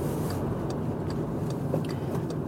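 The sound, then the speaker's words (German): Morning street traffic as cars drive to work, heard as a steady, unbroken rumble of engines and tires with a few faint ticks on top. “Erstaunlich viel los um die Uhrzeit hier auf der Straße. Aber klar, die fahren jetzt alle zur Arbeit, so wie ich auch.”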